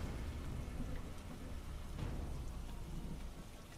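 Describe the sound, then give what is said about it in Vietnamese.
Steady rain falls at night, a faint, even hiss of drops with no voices. “Trời về đêm, cơn mưa cũng dần dần ngớt.”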